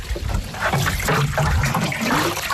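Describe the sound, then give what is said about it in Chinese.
Water pours from buckets onto newly planted pine seedlings on a hillside, a continuous, fairly loud splashing and trickling rush with no voices. “开始干活了，从南往北浇，每棵苗一桶水，别落苗。”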